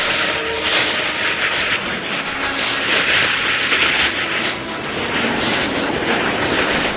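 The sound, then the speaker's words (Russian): A freight train passes by in a steady, loud rumbling roar with a bright hissing, clattering edge. The sound holds almost unbroken across the whole stretch, with no voices. “Присматривается к проходящему мимо товарному поезду.”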